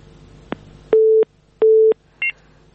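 Telephone line tones follow a caller being cut off: a faint click, then two steady, equal-length low beeps separated by a pause, and finally a short, higher double tone.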